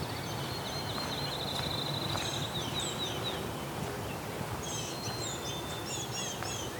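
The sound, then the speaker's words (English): Blue-gray gnatcatchers call along a power-line corridor, giving thin, high, nasal notes in a few short bursts, fairly faint above a steady outdoor hiss. “These gnatcatchers are being loud.”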